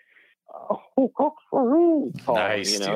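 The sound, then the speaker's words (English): Barred owl calling: a few short clipped hoots, then a long wavering note that rises and falls, ending in a louder, harsher burst of raucous calling. “the barred owl, which is very common anywhere in the lower 48”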